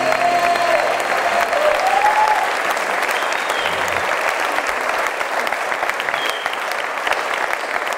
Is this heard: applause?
yes